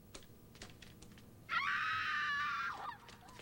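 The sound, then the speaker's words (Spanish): A scream sound effect: one loud, high-pitched shriek that swells quickly, holds for about a second and a half, then drops away, with faint light clicks before and after. “¿Qué tal unos gritos? Dame unos gritos, por favor.”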